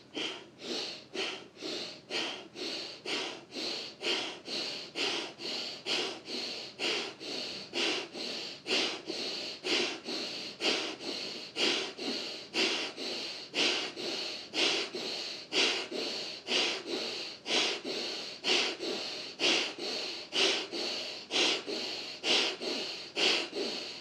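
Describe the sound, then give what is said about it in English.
Rapid, forceful bellows breathing from a Bhastrika pranayama exercise: many sharp, even puffs of air repeat in a steady, fast rhythm with no gaps for the full length, breathy and fairly loud, with no talking. “Bhastrika Pranayama. Inhale, exhale, inhale, exhale. Bellows breath, as if your lungs are a bellows burning on, blowing on the burning embers in your solar plexus.”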